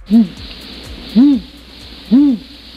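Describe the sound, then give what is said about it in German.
Eagle owl hooting as a played sound effect: three deep, short hoots, evenly spaced about a second apart, each rising and falling slightly, with no talk. “Wie ein einsamer Spaziergang nachts im Wald. Was ist das denn? Sollte ein Uhu sein, aber ich glaube, das ist ein Uhu kurz vorm Niesen.”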